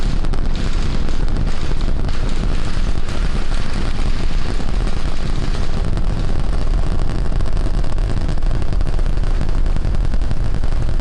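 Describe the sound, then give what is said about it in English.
SpaceX's newest heavy-lift rocket launches on its first flight to orbit with a loud, unbroken, crackling roar. The rumble is heavy and steady, with a dense low end and no pauses throughout. “Like this launch is going off without a hitch. The first ever launch into orbit of SpaceX's newest rocket.”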